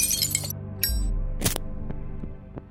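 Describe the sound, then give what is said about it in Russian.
A glass vial of ether is thrown and shatters. Bright crackling, a sharp crash and a brighter burst of breaking glass ring out, followed by a few faint tinkling clinks as pieces settle over a low hum. “Резким движением выдернув пробку, он метнул флакон прямо в середину бурлящего зеленого пятна.”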